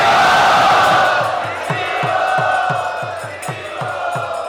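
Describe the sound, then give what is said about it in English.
A temple crowd loudly chants in unison to welcome a visiting swami, a sustained mass of voices over a steady rhythm of low, evenly spaced beats. “Let us welcome His Holiness Indradyumna Swami Maharaj to our temple. We're loudly chanting three times.”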